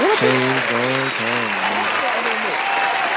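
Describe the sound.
Audience applause rolls on as a dense, sustained wash of clapping at an even level from start to finish, while a man's voice speaks over the top in the opening seconds.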